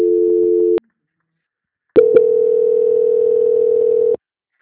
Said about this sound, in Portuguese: Só um momentinho que está dando ocupado.